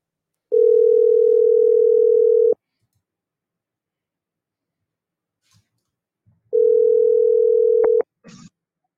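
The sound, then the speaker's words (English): A telephone line tone during an outgoing call: two long, steady, mid-pitched tones separated by several seconds of silence, followed by a few faint clicks. “Let's see if we can't reach him on the phone.”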